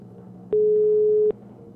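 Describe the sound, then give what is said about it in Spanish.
A telephone ringback tone sounds while a call waits to be answered. One steady, mid-pitched tone lasts under a second and stands out against a low background hiss. “Estamos llamando a nuestra Carmen. Auditora que se llama Carmen. Ay, ojalá conteste. Contesta, Carmen.”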